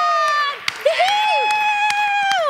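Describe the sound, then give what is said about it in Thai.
A cheering 'hiw' sound effect: a shrill whooping chorus of long, sustained high tones that slide downward at their ends, punctuated by several sharp claps. “ใช่แล้วก็จะได้ฟังเสียงที่ฮิ้วแบบนี้มีคนคอมเมนต์บอกว่าห้ามหยุดที่ฮิ้วเด็ดขาด ห้ามหยุดเลย”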